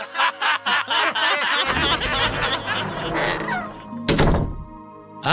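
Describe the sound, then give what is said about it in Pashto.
Banging on a door comes as a quick series of heavy, dull thuds. Chuckling and laughter follow, along with some talking. “څه کیسه ده دروازه را ماته یې”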